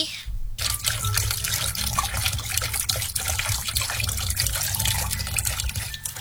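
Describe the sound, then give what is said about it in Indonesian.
Tap water runs to waste in a steady, loud rushing stream that hardly varies, after a brief break near the start. “masih suka menyisakan air minum, membiarkan air mengalir tanpa guna, hura-hura membiarkan air terbuang begitu saja.”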